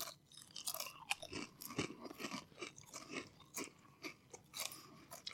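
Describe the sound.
Crunchy sauerkraut-flavoured potato chips being chewed, with many sharp, irregular crunches and bites in a steady run, fairly faint and with no talk.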